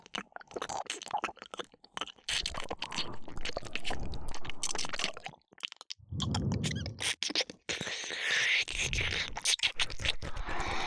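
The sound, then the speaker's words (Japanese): Licking behind an ear: continuous wet, smacking mouth sounds with soft squishes and crackles, close and fairly loud, keeping a busy, uneven rhythm with only brief pauses. “耳の裏もペロペロしちゃう。”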